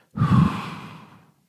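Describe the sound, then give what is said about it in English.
A single deep breath during a breathing exercise: a soft, airy rush that starts abruptly, stays full for a moment, then slowly fades over about a second before silence. “So hold the breath as long as you can. You repeat the deep breath in.”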